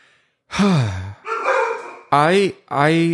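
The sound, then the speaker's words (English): Dogs bark in four drawn-out, tonal bursts over about three seconds, each with a bending pitch, loud and close together. “I'm sorry for the barking. My dogs are having an issue, I guess.”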